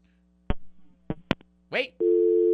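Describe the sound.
A call drops on a radio call-in line: a few sharp clicks and a short garbled burst give way to a loud, steady line tone that holds to the end.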